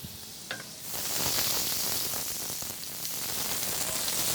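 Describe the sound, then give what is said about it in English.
Butter sizzles after hitting a hot cast iron skillet as three tablespoons go in to start a turkey gravy roux. A steady, bright hiss begins abruptly after a faint click and holds evenly to the end. “So I've got my cast iron skillet nice and hot. I'm going to throw down 3 tablespoons of butter.”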